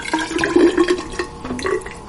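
Melted snow water pours out of a rain gauge in a kitchen: a short, moderately loud run of trickling, splashing liquid with small bubbling pulses and no talk.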